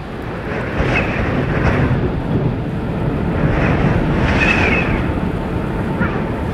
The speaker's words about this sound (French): C'est arrivé très brutalement. Et en fait, c'est caractéristique de ces petites tempêtes qui par moments se lève très très brutalement